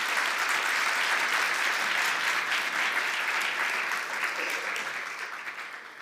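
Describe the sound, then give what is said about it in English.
Applause for the United States Coast Guard color guard in Staten Island at a church service honoring veterans: steady, dense clapping from a crowd that holds for several seconds, then thins and fades toward the end. “I'd like to thank the United States Coast Guard here in Staten Island for presenting the colors. Let us give them a hand once again for their service.”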